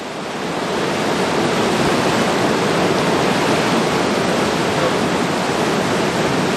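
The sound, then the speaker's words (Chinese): A tidal bore surges in at Yanguan during the tide-watching season, a loud, steady roar of rushing water. It swells slightly at the start, then holds as a dense, unbroken wash of noise with no voices. “除了看得清潮水的姿态，我们更听得见它由远及近的像立体声一样的声响。”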